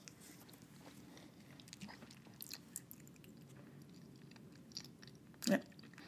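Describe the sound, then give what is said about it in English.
Chewing on a bite of patty pie: soft, low mouth noises carry on quietly throughout, with one louder crunchy bite near the end. “I've been waiting for 2 days to bust this patty pie open, so I'm so excited. And let's see what it tastes like.”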